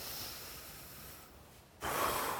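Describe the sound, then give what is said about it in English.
A deep breath drawn in by a group during a guided moment of prayer: a soft, broad hiss of air. It dips quieter briefly, then swells suddenly into a louder rush near the end. “I'm going to ask that everybody take a deep breath right now”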